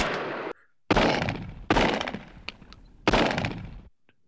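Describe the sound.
Four loud gunshots ring out in a shootout. Each booming report is followed by a long decaying tail, and the shots come at uneven intervals with no voices.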